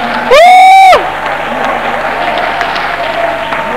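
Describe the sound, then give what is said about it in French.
Church audience cheering and applauding loudly in praise, opening with a loud sustained whoop-like tone that rises and falls, followed by steady crowd clapping and noise. “Et quand on me salue, ça doit être debout, on l'acclame très fort.”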